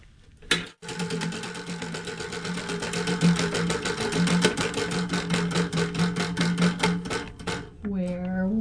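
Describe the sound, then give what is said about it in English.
A prize wheel spins with a rapid run of ratcheting clicks that gradually spread out as it slows, and a voice briefly sounds at the end. “Oh, it's spinning backwards. The wheel has her own mind.”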